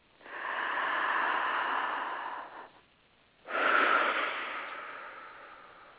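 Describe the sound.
Deep breathing during a meditation: two long, airy, hissing breaths, the first drawn out steadily and the second starting loud and slowly fading, separated by a short near-silent pause.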